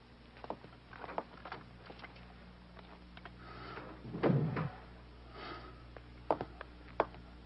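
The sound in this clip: A door is shut with a brief low thud partway through, among faint scattered clicks and soft shuffling in a quiet Spanish-dubbed film scene.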